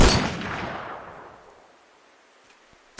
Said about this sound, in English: How the hell did he make that shot?